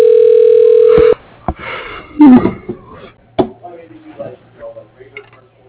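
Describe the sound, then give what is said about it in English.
A steady telephone line tone plays for about a second as a call is transferred to voicemail. It is followed by muffled line noise and indistinct voice-like sounds. “let me put you through to his voicemail. Hold on just a second.”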